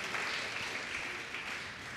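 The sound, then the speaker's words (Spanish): Applause from a church audience during a sermon, a dense steady wash of clapping that holds throughout and eases slightly toward the end. “Dele un fuerte aplauso a Cristo Jesús. Aleluya.”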